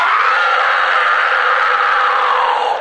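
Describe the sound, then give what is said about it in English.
A person lets out one long, loud scream into a microphone. It is a single sustained, raw, strained cry that holds steady at full volume for its whole length, with no pause and no other voices. “now that you have a better idea, let's hear your best scream.”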